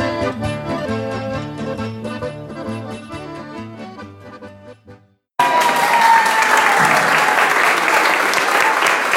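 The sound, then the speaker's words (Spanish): Crowd applause and cheering at the start of the Cipotegato festival in 2018, a loud dense roar of clapping that bursts in suddenly after a stretch of music and holds steady to the end. “baja el Cipotegato, aplaudido por los aquí presentes para recibir el apoyo”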